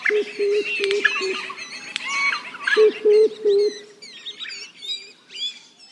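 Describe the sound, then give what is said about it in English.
Songs of threatened Australian bird species: two bursts of repeated low cooing notes beneath higher chirps, whistles and twittering calls that overlap and continue throughout. “It's a collection of the songs of 53 threatened Australian bird species.”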